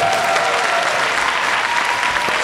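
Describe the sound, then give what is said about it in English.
An audience applauds a video team at the close of a live documentary event. The clapping is full and continuous and stays steady throughout, with no clear voices above it. “One more round of applause for the video team.”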